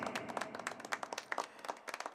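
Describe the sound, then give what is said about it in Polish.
Quiet applause for an inspector during a church service, a scattered run of distinct individual hand claps in an uneven rhythm, faint overall. “Myślę, że należą mu się oklaski.”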